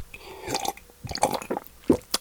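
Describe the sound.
Gulping a drink from a cup: several irregular, wet swallows and liquid squishes of moderate loudness, with no talk over them.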